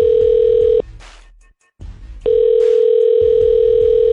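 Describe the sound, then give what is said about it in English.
A telephone tone sounds as a call is dialed. Two long, steady, mid-pitched tones are separated by a short silence, with a low rumble beneath them. “No turning back because I'm about to hit dial.”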